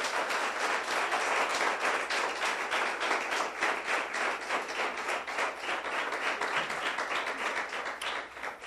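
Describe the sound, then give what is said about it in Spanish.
Sustained applause from a church audience during a sermon: dense, steady clapping that holds an even loudness for the whole stretch with no voices standing out. “Demos un aplauso al Señor, hermano.”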